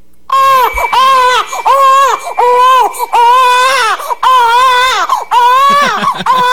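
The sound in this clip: A baby girl cries, played back on radio: loud, high wailing sobs come in a series of drawn-out bursts, each bending in pitch, with short catches of breath between them.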